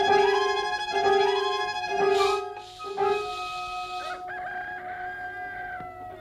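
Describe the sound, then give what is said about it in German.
Rooster crowing among chickens feared to be sick, with drawn-out, harmonic crows and clucks rising and falling over a few seconds, fairly loud and without talk. “Mir gefallen die Hühner nicht”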